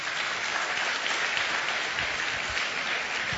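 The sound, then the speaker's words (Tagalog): An audience at a church service claps steadily for the Lord, with dense, even applause holding throughout and no one speaking over it. “Pwede mong palakpakan natin ang Panginoon?”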